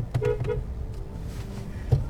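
Two short car horn beeps from a 2007 car at a green traffic light in Las Vegas, sounding in quick succession over a steady low road rumble.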